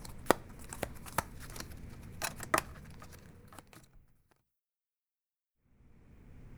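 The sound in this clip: Playing cards handled while building a house of cards: scattered light taps, flicks and clicks, faint, then a stretch of silence before low background noise returns.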